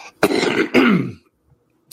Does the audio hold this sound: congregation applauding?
no